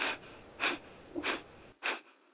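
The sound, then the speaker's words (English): Kapalabhati breathing: forceful, rapid exhalations through the nose, like blowing out a candle, come as four sharp, hissing bursts in a quick, steady rhythm, with no talking. “it's like blowing a candle out with your nose, and it's a forceful breath taken at a pretty rapid pace.”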